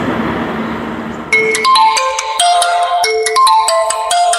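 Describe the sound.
A phone ringtone signals an incoming call: a bright electronic melody of short, repeating notes that starts after a stretch of background noise and keeps looping, loud and without voices.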